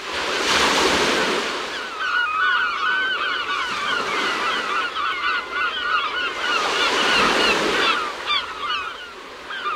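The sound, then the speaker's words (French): Gulls calling over breaking ocean surf, many sharp, squealing cries overlapping in dense flurries while waves swell and wash loudly beneath them. “C'est le cri des goélands. Alors, c'est bien des goélands, là, je me suis pas trompé.”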